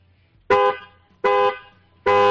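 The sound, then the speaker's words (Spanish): Three short toots of an Opel car horn, evenly spaced, each a steady, bright, buzzy tone that cuts off quickly. Nothing else is heard between them. “¿Cómo suena? Sí, claro, es un Opel pirata como el tuyo, pero no es el modelo tuyo.”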